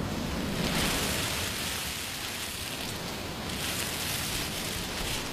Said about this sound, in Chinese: 说把海螺放在耳边就能听到大海的声音，你听。